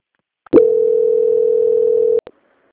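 Steady single-pitched telephone line tone plays while a bank call is being transferred. It holds at one even pitch for under two seconds, with a click at the start and short clicks as it cuts off.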